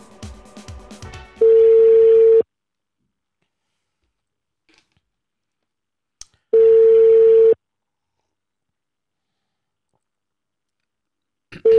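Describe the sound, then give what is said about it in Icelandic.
Ringback tones on a telephone line while a call is being placed: a burst of clicking opens, then two steady one-second tones sound about five seconds apart with silence between, and a third tone begins at the very end. “fara að hringja í hann frábæra mann Þórhall Dan Jóhannsson”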